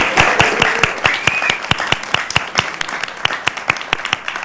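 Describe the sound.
Loud, steady applause follows a Portland city council proclamation of Asian American and Pacific Islander Heritage Month, with many claps in a fast, even patter.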